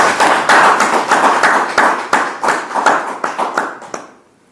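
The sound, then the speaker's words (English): Audience clapping at a meeting after a farewell speech: dense, steady applause that thins into separate, uneven claps and then stops near the end. “Can I comment that we're not clapping to see you go? No, we're not clapping to see you go.”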